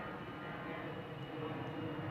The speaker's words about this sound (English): so it looks like today is going to be a Sunday where we're in the takeoff path.